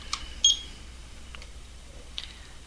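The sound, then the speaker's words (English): A small timer beeps: a short, high electronic tone stands out early, with fainter chirps before and after over a quiet background. “Is that smoke detector going off? No, it's a little timer.”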